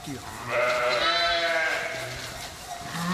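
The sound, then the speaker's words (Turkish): Merino ewes and a newborn lamb bleat on a farm, with a long, loud, wavering bleat in the middle and shorter calls before and after. “dünyaya gelen merinos cinsi kuzu iki koyun arasında paylaşılamadı.”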